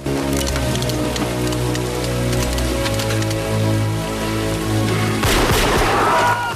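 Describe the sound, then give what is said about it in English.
Gunfire in a film scene as a gang shoots down police: sharp rattling bursts over a sustained tonal musical score, with a louder, denser burst near the end. “Police are mown down, their bodies jolting with the impact of the bullets.”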